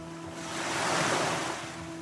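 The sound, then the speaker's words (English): Stormy sea waves crashing in the Irish Sea during a violent storm: a broad, rushing surge of surf swells to a peak and then eases, with wind noise mixed in and no voices. “During the voyage, a violent storm erupted in the Irish Sea,”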